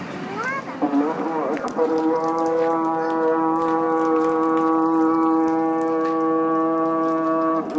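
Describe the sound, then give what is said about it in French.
A call to prayer resounding through a ruined, deserted city: one sustained voice, at first ornamented with wavering pitch bends, then holding a long, steady note. “Ici, pas de bruit de chantier, mais juste l'appel à la prière qui résonne dans une ville fantôme, en ruine.”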